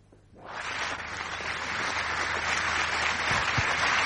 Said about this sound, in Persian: دوتا مهمون هنرمند داریم که اونا رو روی صحنه دعوت میکنیم، براشون دست میزنید و میان روی صحنه.